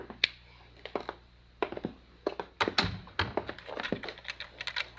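A door being locked in a windowless room: a faint, quick series of sharp clicks, taps and small thunks, irregular in rhythm and bunching closer together toward the end.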